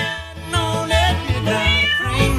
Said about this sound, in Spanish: Ay, hasta un gato, ay, sí, claro.